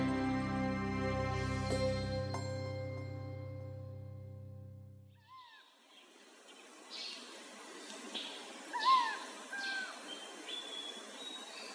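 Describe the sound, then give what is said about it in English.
Calls of the forest owlet, an endangered bird of India: several short, faint, chirping and whistled notes over a soft background hiss, following a stretch of sustained musical tones that fade out. “What you just heard is the voice of the forest owlet, an endangered bird that is found only in certain pockets of India and nowhere else in the world.”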